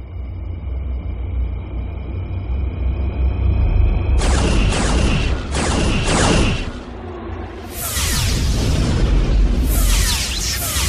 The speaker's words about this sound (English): Continue evasive pattern, load quantum torpedoes, and fire at will!